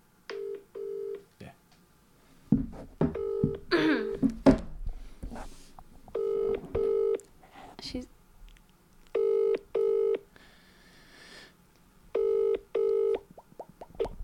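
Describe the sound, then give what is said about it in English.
An unanswered phone call rings out in a double-burst pattern: four pairs of short, steady tones spaced at intervals. People talk and react loudly over the gap after the first ring. “No, that's two people we've called and they haven't answered”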